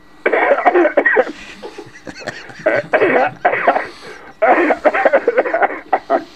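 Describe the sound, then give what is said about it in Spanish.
Deliberate coughing on request comes in a few loud, harsh bursts of rapid hacks separated by brief pauses. “A ver esas toses que nos había prometido. A ver si me salen un poco.”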